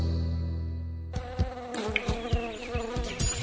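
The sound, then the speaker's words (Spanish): Mosquito buzzing, a thin wavering insect whine with jittery pitch, starts abruptly after a steady tone fades out and continues alone to the end. “Está bien eliminar los mosquitos, pero eso no alcanza para frenar el dengue.”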